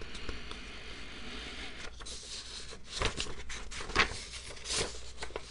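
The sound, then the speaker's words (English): Papers being shuffled: faint, continuous rustling and scraping with a few slightly louder swishes scattered through it, and no voices. “Am I shuffling the papers enough? To be fair, I should let you guys know that I have employed a paper shuffling team to make these noises”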